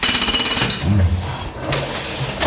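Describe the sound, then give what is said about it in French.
A printing press starts up as its ink rollers press onto the plate, giving a loud, rapid rhythmic mechanical clatter with heavy low knocks and a running machine rumble. “Nous allons apporter l'encre qui est dans l'encrier sur les rouleaux afin que ces rouleaux viennent s'appuyer sur la plaque. Donc je démarre la machine avec la fameuse expression « gare aux mains ».”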